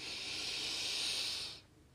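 A deep breath drawn in during a guided breathing exercise: a steady, loud, airy hiss that holds for about a second and a half, then cuts off into near silence.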